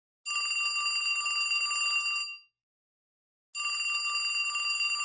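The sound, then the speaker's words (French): A telephone rings for an outgoing call: two long, bright electronic ring bursts separated by a pause, the second cut off at the end. The ringing is steady and heard alone, with no talk. “On va l'appeler.”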